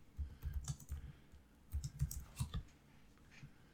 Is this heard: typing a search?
yes

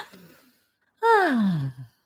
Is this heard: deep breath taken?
yes

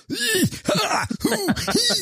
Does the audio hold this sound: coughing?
yes

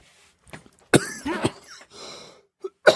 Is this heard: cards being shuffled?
no

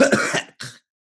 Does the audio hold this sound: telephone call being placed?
no

